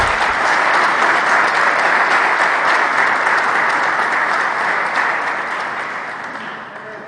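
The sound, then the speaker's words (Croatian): Applause welcomes a guest author at a book evening: many hands clap in a dense, steady stream that holds strong for several seconds, then gradually fades over the final two seconds. “pa da je pozdravimo jednim aplauzom.”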